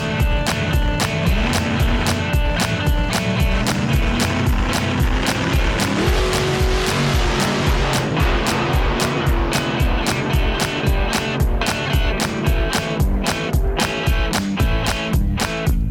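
Car driving off at speed toward a speedway, its engine drone climbing in pitch through gear changes over a steady, loud rhythmic thumping.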